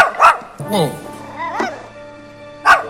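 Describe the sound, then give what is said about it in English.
A small dog, a chihuahua, gives four short, high yipping barks with a whiny, whimpering edge, separated by brief pauses. “Who got the dog? Yeah, I didn't bring the dog.”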